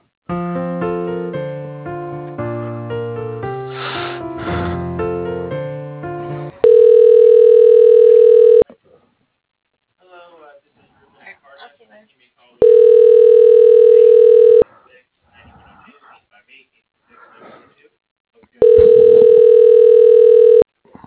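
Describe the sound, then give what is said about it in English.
A phone call being transferred to voicemail: a few seconds of hold music, then three long, steady ringing tones of about two seconds each, separated by quiet gaps with faint noise. “So I can leave you. I can send you over to Charlie's voicemail.”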